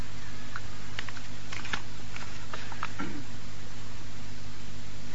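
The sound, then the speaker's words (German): Typing on a computer keyboard: a few scattered clusters of light clicking keystrokes, faint and uneven, over a constant electrical hum. “Der kann das austippeln. Warte, tippst du.”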